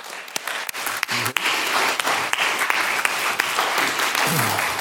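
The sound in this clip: Audience applause welcoming a pastor to speak: dense, steady clapping from many hands that holds at an even level for the whole stretch, with sharper individual claps standing out now and then.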